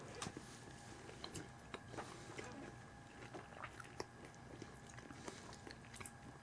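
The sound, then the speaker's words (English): Chewing of pineapple during a tasting, very faint, with many small crunchy clicks and moist bites in an irregular rhythm. “Nice and sweet. Pineapple. Gonna go for some pineapple here.”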